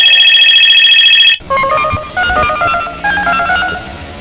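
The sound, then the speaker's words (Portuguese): A mobile phone rings on a street: a steady buzzing electronic tone switches to a loud melodic ringtone of repeating electronic notes in a regular, bouncing pattern. “Ai meu Deus, quem é que tá ligando pro meu celular?”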